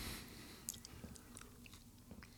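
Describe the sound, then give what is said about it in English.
A hotel-style waffle with syrup is chewed in faint, moist bites with a few soft crunches, close and quiet. “To me, it tastes like a hotel waffle with like hotel syrup, which I kind of like.”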